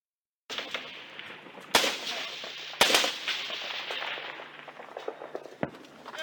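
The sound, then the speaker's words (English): Gunfire in combat near Kandahar city, Afghanistan, in July 2006: a few sharp, loud cracks stand out against a continuous rough, noisy rumble of fainter popping shots. “This is what it sounded like. This is combat camera footage that you can listen to that was taken back in early July of 2006, just before I got there.”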